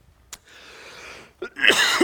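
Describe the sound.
A person coughing and clearing their throat after choking on swallowed spit: a sharp catch, a breathy strained stretch, then a louder rough burst of coughing.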